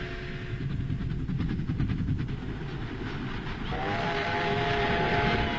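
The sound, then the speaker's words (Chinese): A passenger train travelling toward Beiping makes a steady, loud rumble of wheels and carriage noise that runs unbroken and grows slightly louder in the later part, with no voices. “他登上了返回北平的火车。”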